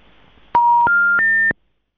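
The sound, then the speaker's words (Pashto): Three rising telephone tones sound after a phone line is cut off during a call. Each tone is loud, steady and brief, and each steps higher than the one before, over faint line noise. Silence follows the third tone. “متاسفانه چې دی حق بیان صاحب ټلیفون قطع شوی دی”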